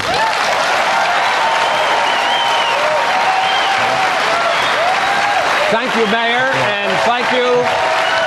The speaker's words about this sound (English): That is the sound of a standing ovation for an openly gay man running for president on Fox News in primetime.